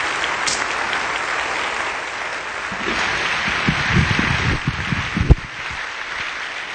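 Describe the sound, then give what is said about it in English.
Audience applause welcoming a speaker to the stage: dense, steady clapping from many hands that continues throughout, with a brief louder burst near the end before it eases slightly. “I want you to give a warm welcome to Sally, please, as she comes to speak to us.”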